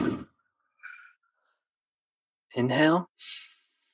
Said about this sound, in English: 3, 2, 1, and inhale through the nose. Exhale.